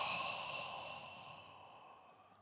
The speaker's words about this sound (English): Now take a deep breath in and blow into your solar plexus chakra.